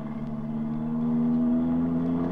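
A taxi car drives away fast, its engine giving a steady, loud low drone with a strong humming tone that holds throughout and swells slightly in loudness.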